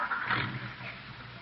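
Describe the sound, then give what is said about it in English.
A car driving away: a brief, rough engine roar that is loudest at the start and eases slightly as it goes on. “She's driving away.”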